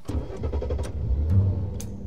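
A car engine running while driving, heading to a filling station on a nearly empty tank, gives a steady low rumble with slight swells in loudness throughout, with no voices.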